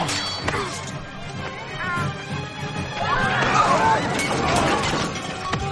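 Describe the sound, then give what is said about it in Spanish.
Clay pots smash as a man is flung into a stall of earthenware vessels during a street fight in a drama film, a burst of crashing and clattering shards amid rough crowd hubbub, with more crashing in the middle. “El alguacil coge a uno de ellos por la capa y lo lanza contra un puesto de vasijas de barro.”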